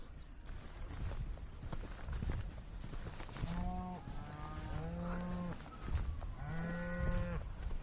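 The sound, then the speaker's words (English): Black cattle with young calves lowing in a field: several drawn-out, harmonic moos, the clearest in the second half, over a continuous low rustling background. “Just passing a field full of black cattle. Lots of young calves with them. They all seem a little bit excited.”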